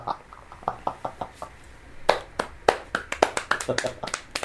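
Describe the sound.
Dry, half-hearted hand clapping: sparse, irregular slaps at first, then quicker and slightly louder claps in the second half, still uneven and never building into full applause.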